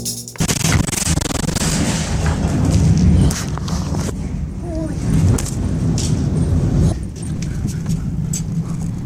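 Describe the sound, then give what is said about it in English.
Devastating explosions at an industrial port in northern China, heard as loud, sustained booming and roaring rumble with sharper cracks, dense and continuous, with voices underneath. “Hundreds of people have been injured and at least 17 killed after a series of devastating blasts sent a fireball hundreds of meters into the air at an industrial port”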